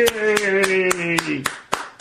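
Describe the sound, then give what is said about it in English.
Evenly spaced hand claps stand in for an applause track, sharp and regular across the whole stretch. A voice holds a long, cheering, slightly falling note over them. “I figured if you give me an applause track.”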